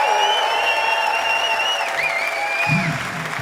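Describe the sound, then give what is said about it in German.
A crowd applauds a band member on keys and vocals at the Rudolstadt open-air festival, with steady clapping throughout and sustained tonal notes ringing above it. “Macht mal ein bisschen Lärm für Sophie an den Keys und an den Vocals.”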